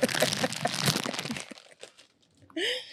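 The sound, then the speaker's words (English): Someone eats Cheetos: crisp crunching and crinkling come in quick, loud bursts for over a second, then die away into near silence. “I'm eating Cheetos.”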